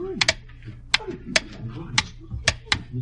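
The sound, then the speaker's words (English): A handmade pendulum clock ticks, starting up after its pendulum is balanced: several sharp, bright ticks at slightly uneven intervals over a low, murmuring background. “And finally, as he balanced the pendulum, it began to swing and didn't stop.”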